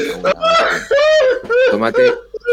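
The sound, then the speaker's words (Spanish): A man cries in a crowded room, a whimpering, sobbing voice with wavering pitch broken into several gasping bursts. “Entonces, hoy ya se ha puesto a llorar otra vez, tío.”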